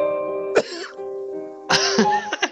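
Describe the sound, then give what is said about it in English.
A person coughs: one sharp cough, then after a pause a quick cluster of several throaty coughs, loud over a steady tonal background. “Sorry for coughing. I'm sorry about that.”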